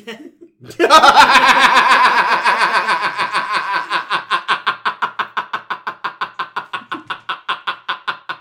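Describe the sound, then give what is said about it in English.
A voice imitates the Wheel of Fortune wheel spinning, making rapid ticking vocal clicks that start dense and gradually slow, spacing out further and further over about eight seconds. “was doing his impression of the Wheel of Fortune wheel”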